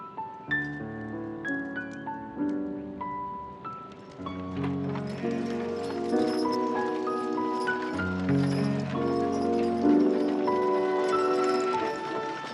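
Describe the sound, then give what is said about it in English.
Horse-drawn wagon driving out of a yard with horses tied behind, hooves clip-clopping at a steady pace beneath a prominent musical score. “Drives out of the yard, their horses tied behind the wagon.”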